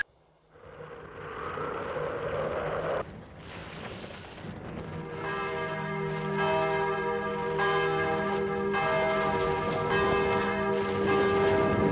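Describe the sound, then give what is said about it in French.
A bell rung at a front entrance in the morning: after a stretch of hissing noise, repeated clanging strikes with bright, lingering overtones pile up and grow gradually louder until the end. “L'on sonne à l'entrée, comme chaque matin.”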